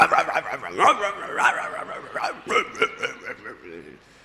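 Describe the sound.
A human voice imitating a dog, growling and barking in many short, rhythmic bursts that trail off into quiet at the end.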